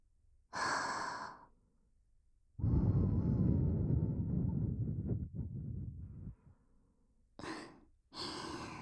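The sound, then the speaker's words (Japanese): Breath is blown into an ear to clear out earwax, in quiet puffs: a short airy blast, a long rumbling blow lasting several seconds, then two brief hissing puffs close together. “それをきれいにしないといけません。ですから、 こうして息を吹きかけて、”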